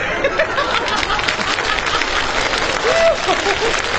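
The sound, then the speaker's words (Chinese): Audience applause at a comedy crosstalk performance built on riddles: dense, steady clapping from a crowd that continues evenly from start to finish. “您还给他鼓掌。”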